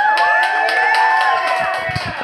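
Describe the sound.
A live show audience cheers loudly, with high whoops and shouts riding over continuous clapping and crowd noise that holds steady to the end.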